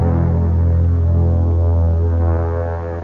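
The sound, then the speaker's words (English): An electric razor shaving off a mustache, giving a constant, dense, buzzing hum that holds steady throughout and eases off slightly at the end. “Are you ready, Your Majesty? Oh, I see you're still shaving.”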